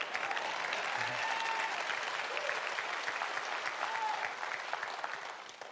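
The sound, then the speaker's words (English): Congregation applauding during a church service: steady, sustained clapping that stays fairly faint and even throughout, tapering slightly at the end. “That you should clap better than that.”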